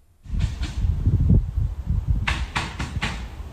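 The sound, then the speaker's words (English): A volley of gunshots rings out from a house during an armed standoff with police: a quick run of several sharp cracks following a low rumbling background. “A volley of shots rings out from a Seddon Street home”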